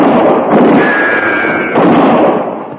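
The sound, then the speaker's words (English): Rifle shots ring out during a Western gunfight, heard as sharp, loud blasts over a dense, continuous roar of noise that swells again near the end. “As soon as one of them raises up to shoot. You got him. You know how to use a rifle.”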